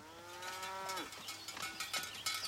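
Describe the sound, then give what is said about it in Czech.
A cow moos once, a low, strong, buzzing call held steadily before dropping off at its end. A scatter of scuffling noises follows. “krávy, která se tam pásla. Měla krásné oko, silný hlas a pevné boky.”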